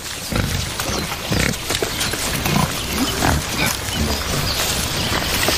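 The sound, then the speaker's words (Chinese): Wild boar forages on the ground with its snout for roots, worms, snails, fungi and moth larvae. Continuous snuffling and low grunts sit over a dense, steady background. “野猪灵活柔韧的长鼻子派上了用场，它们在地面搜寻根茎、蠕虫、蜗牛、菌类，以及丁目大蚕蛾幼虫为食。”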